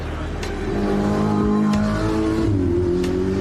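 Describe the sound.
Sports cars climbing a hill track at full speed give a loud, sustained engine roar. The revving pitch climbs noticeably in the latter part, over a dense, continuous mechanical drone.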